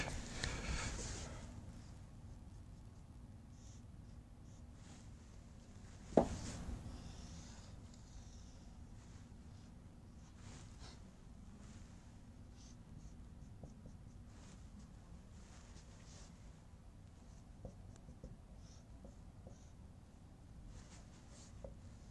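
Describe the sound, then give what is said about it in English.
A pen scratches across paper while a diagram is drawn, making faint, steady, scratchy strokes for about twenty seconds, with one sharper tap or knock near the start and no talking. “Take me just a second to draw this one, I think.”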